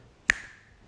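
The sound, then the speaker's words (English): A single sharp finger snap, loud against near silence, with a brief ringing tail that fades quickly. “See, that was the sound of me snapping.”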